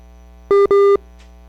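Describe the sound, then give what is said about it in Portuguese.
Two short electronic tone beeps on a phone line right after a call drops: a steady mid-pitched tone with a slightly shorter first beep and a longer second one, separated by a brief gap and then followed by silence. “Agora de fato caiu a ligação. Acho que ela recebeu uma outra ligação. Agora caiu mesmo.”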